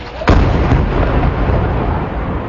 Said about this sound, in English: In the Gaza Strip today, explosions.